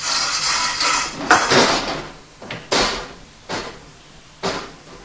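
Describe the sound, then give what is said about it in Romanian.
A window is pushed open with a series of sharp knocks and scraping bumps. Several distinct thumps come at irregular intervals over a few seconds, each a short burst of broad noise. “Uite, vezi? Fereastra s-a deschis când am împins-o.”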